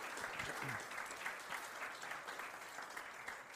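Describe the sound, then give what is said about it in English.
A round of applause from an audience: faint, dense, steady clapping that carries on evenly from start to finish. “So, I think to on yeah, a round of applause.”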